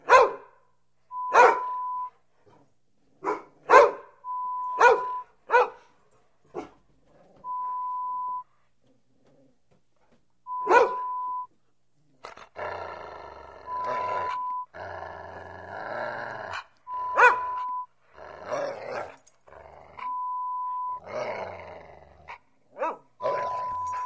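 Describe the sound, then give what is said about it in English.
Dogs bark inside a home, sharp loud barks coming singly and in quick clusters with pauses between, joined later by deeper rumbling growls and grunts, repeating irregularly throughout. “Play this hour-long recording on repeat play when you leave home and create the impression that you keep dogs inside your home.”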